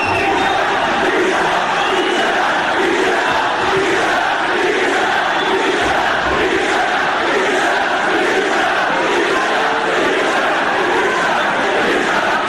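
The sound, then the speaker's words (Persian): Stadium crowd chanting insulting slogans in unison at an Iranian football ground, a loud, unbroken roar of many voices with rhythmic swells throughout. “اما بریم رو شعارهای توهین‌آمیز که اونم چند بخشه، کم زهر و خیلی زهردار. این صدا رو بشنوی.”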